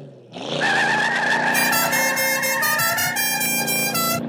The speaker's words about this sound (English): Was the Dixie horn melody necessary? I know. But it's a well-known signature of that particular fictional vehicle